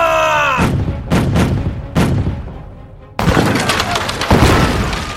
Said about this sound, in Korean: 적선을 향해 한포를 쏴라!